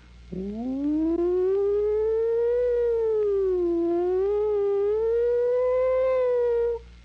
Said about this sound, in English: sound of a distant approaching and receding siren. Squad car, the police, the fire department, who knows what, an ambulance.